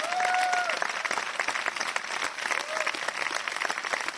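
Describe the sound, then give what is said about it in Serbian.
Theatre audience applause after a performance of Two Gentlemen of Verona, a full, steady clatter of many hands that stays loud and even throughout. “Publika je sinoć odlično reagovala na Dva viteza iz Verone.”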